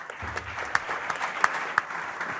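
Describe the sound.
A studio audience on a Czech television show applauds with a standing ovation as a former football player is welcomed on stage. The dense, steady clapping has a few sharper individual claps standing out.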